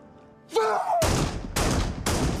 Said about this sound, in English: Merc fires at Carter.